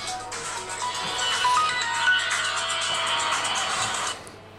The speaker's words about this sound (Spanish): Ya sabéis lo que pasa, son cosas del directo. Estás hablando y te suena el móvil.